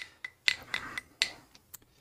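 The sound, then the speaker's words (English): A metal screwdriver, used in place of a spoon, clinks against a glass while stirring cider: several sharp, bright taps ring out at an uneven rhythm with short metallic ringing between them, fairly faint and with no talk. “I'm using a screwdriver to stir my cider because I don't have.”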